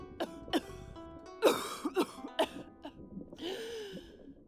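Coughing and throat clearing from a hoarse-voiced queen, a series of short, sharp coughs of varying strength, alone without speech.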